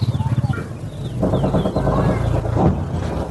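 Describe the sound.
Birds call in a war-affected farming area, with quick high chirps and clucking over a steady low rumble, and a voice is faintly mixed in.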